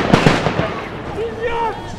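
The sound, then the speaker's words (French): Gendarmes fire grenades, two sharp bangs in quick succession, followed by a murmur of voices in the background. “Les blindés n'avancent pas, les gendarmes tirent des grenades en tous sens.”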